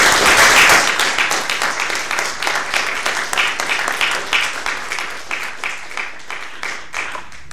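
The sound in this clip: A conference audience claps to thank a speaker, with dense, loud applause that gradually thins and softens into scattered claps.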